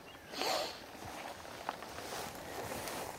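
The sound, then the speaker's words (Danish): Footsteps hopping from tussock to tussock in a marsh, soft irregular thuds and rustles of vegetation, fairly faint and uneven in rhythm. “Okay, der, det er lidt, der er lidt sport i det her. Ja. At gå fra tue til tue. Det er faktisk at hoppe fra tue til tue, som i sangen.”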